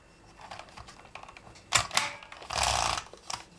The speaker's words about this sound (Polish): Więc teraz robię odstęp i piszę dalej.